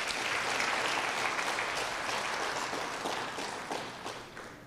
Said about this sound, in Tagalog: Amen. Palakpakan po natin ang ating Panginoon.